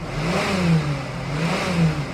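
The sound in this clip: A car engine accelerating and revving, with a loud, steady mid-pitched drone whose tone wavers and surges a couple of times across the short stretch.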